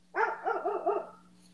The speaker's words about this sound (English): Somebody's dog agrees. That's my dog.